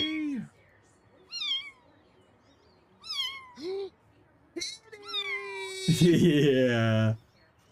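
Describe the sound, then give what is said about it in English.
A cat meows repeatedly, several short rising-and-falling cries and then a long, loud, drawn-out yowl, with people's voices in between. “Wait. Cute little kitty. Come on.”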